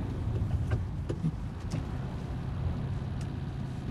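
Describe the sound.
Car engine running in second gear at 80 km/h, a steady, loud, low rumbling drone that holds without pause.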